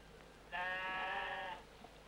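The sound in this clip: A salt-meadow sheep gives a single drawn-out bleat lasting about a second. The call is steady, harmonic and clearly audible over a quiet, faintly hissing background.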